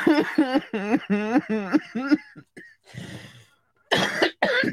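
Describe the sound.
Coughing from someone congested with mucus: a few harsh, noisy bursts follow a stretch of talk. The coughs are loud and rough, clustered near the end.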